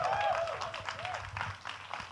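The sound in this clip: A church audience applauding to welcome the pastors, a soft, steady patter of many hands clapping that stays fairly even.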